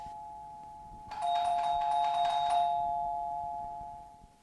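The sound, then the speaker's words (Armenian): A doorbell at a home rings once after about a second of quiet. Its steady electronic chime holds, then slowly fades, with no voices. “Տեսա որ եկար, դրա համար էլ զանգը տվեցի։”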